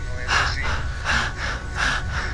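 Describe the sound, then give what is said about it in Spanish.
A person demonstrates a breathing technique during a medical discussion: a few rhythmic, breathy, gasping inhales and exhales in steady alternation, fairly loud and airy with no talking. “Quien respira como yo lo estoy haciendo”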